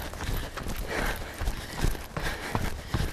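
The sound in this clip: Footsteps of a person running uphill give a faint, rhythmic series of soft thuds at an even running pace.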